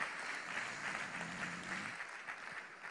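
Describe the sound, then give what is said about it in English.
A church audience gives hand-clap applause in honor of an apostle and pastor. The soft, steady clapping continues evenly throughout, with no prominent voices. “Let's give them a big hand clap.”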